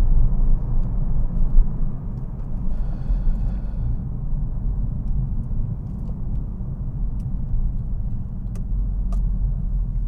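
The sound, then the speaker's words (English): Steady, loud engine and road rumble of a car driving fast through corners at about 50 miles an hour, a continuous low roar with no clear breaks. “remarkable how quickly this car can actually go around a corner. It does surprise me. 50 miles an hour through those corners.”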